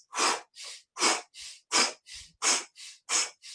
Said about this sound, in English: So you can do a powerful breathing. That's breathe in through your nose and powerful breathe out through your mouth.